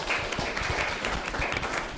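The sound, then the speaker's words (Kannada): Audience applause at a quiz competition: a dense, steady patter of clapping that fills the whole short moment. “ಚಪ್ಪಾಳೆ ಕೊಡಿ.”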